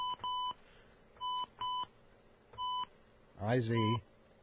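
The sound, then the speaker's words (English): Telephone keypad tones sound while dialing a toll-free number: five short electronic beeps in uneven pairs and singles with pauses between them, faint over a low background, followed by a voice at the end. “Oh, you see, you got to dial fast these days. You can't just think about dialing.”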